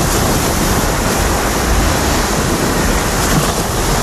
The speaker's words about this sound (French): Le bruit de la mer et du ramassage donc des déchets sur la plage de la réserve de Beauguillot